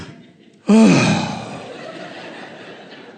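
A deep breath from a person leaning on a counter: one loud, abrupt intake with a slight voiced edge, then a long breathy trail that slowly fades.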